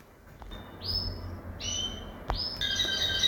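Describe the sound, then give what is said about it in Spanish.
A pet canary sings nearby, a few bright, high chirps in quick succession that end in a rapid trill, over a faint low background rumble. “Y aprovechando la alegría de un canario que tengo muy cerquita”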